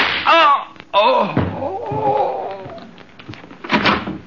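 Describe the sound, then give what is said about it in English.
A sharp gunshot in a radio drama, a hard sudden bang that cuts in among raised, shouting voices. The voices keep speaking over thumps and scuffling sounds afterwards. “I was playing a joke on my friend. A joke? You just shot him.”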